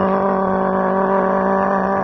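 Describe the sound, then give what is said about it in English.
A voice imitates the engine of a loud little Coleman mini dirt bike puttering along at about 10 miles an hour: a steady, buzzing drone held unbroken at an even pitch and loudness. “So here I am on this Coleman little mini dirt bike riding around his property, but it's only going like 10 miles an hour. So I'm just sitting there. It's kind of loud. It's actually like.”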